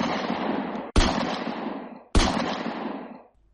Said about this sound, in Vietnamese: Giữa đêm tiếp tục có 3 tiếng súng nổ ra như xé tan cái âm thanh của biển cả.